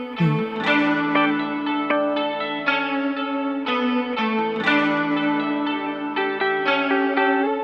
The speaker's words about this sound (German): Ja, was man da hört, sind einfach die drei essentiellen Gitarrspuren, die ich mit der Loopstation damals aufgenommen habe.